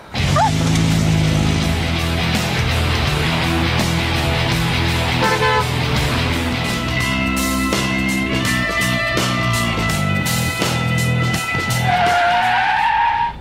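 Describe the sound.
Tires screech and skid as a speeding car races through a chase, with engine roar, honking tones and sustained loud, dense noise throughout.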